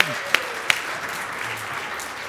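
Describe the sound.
Audience applause, a steady wash of clapping with a couple of sharper individual claps standing out.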